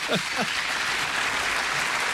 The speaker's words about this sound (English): Acquitted forever. Forever. Holding it up. The crowd's going wild.